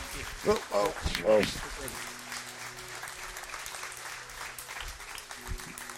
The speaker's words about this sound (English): Let's give these guys a warm welcome as we thank them for coming here today.